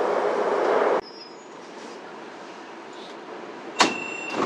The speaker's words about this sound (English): The next station is 季家庙。 Please get ready for your arrival.